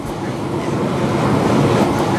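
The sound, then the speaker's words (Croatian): Steady, loud rumbling roar of an underground subway train travelling below ground, with a broad, continuous wash of rail and carriage noise that holds even throughout. “Ja prvi put u životu u podzemnoj željeznici i putujemo ispod zemlje”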